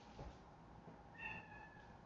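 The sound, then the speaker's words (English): A pet cat that has climbed onto a kitchen counter gives one short, faint meow with a clear tonal cry, set against low steady background noise. “Don't meow at me, I have slime hands.”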